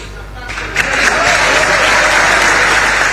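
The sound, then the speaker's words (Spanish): A crowd gives unanimous applause to the legendary goalkeeper Franco Armani at his farewell. The clapping builds quickly after a quieter start and stays loud and dense, with a voice speaking over it. “el aplauso unánime, muy merecido, por cierto, para la figura de Franco Armani, que es un arquero leyenda.”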